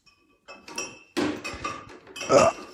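Glass clinks and knocks as a lemonade bottle is handed over, a few bright taps and rattles after a brief silence, with the loudest chink near the end.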